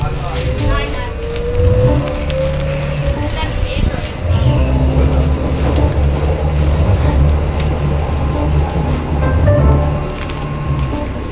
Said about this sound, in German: Und dann steigen wir in die Bahn ein und fahren dann nach Neukölln.